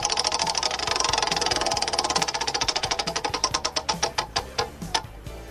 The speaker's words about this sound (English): But let's spin the wheel and see where we're going first.